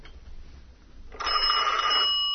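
A telephone rings. After a faint low hum, a steady, fairly loud electronic ring tone starts about halfway through and holds unbroken to the end.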